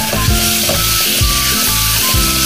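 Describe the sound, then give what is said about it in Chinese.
Spring bamboo shoots stir-frying in light soy sauce over high heat for twice-cooked pork give a loud, constant sizzle, with stirring movements breaking through the crackle. “首先生抽开大火，把这个春笋倒进去，出锅前稍许的加点糖调一个味儿。”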